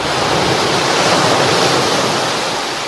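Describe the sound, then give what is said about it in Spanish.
Pacific Ocean waves at Venice Beach make a loud, steady wash of surf, with a broad hiss and rumble that continues evenly without distinct breaks. “vamos a dejar que nos mojen las olas del Pacífico, de la playa, por ejemplo, de Venice Beach,”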